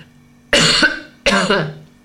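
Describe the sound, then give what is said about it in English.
Two harsh, loud coughs separated by a short pause, made in sympathy, with no other talk around them. “I've got sympathy coughing, remembering what the air used to be like.”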